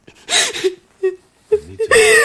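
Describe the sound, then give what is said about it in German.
A woman crying, with a few strained whimpering and wailing bursts separated by short pauses; no words are spoken. “Du wein doch nicht. Nicht weinen.”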